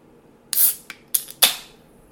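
A bottle is cracked open with a few short, crisp bursts of hissing crackle. The first burst is the longest, followed by quicker sharp snaps, all heard alone without talk.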